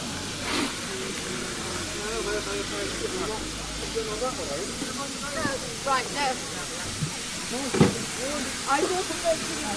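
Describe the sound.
A steam locomotive hisses steadily at a station platform just before departure, a broad airy rush under people talking, with a few sharper brief bursts breaking through.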